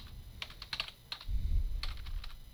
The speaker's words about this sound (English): Can't spell that word either. Too many words. So fast to say, so hard to type.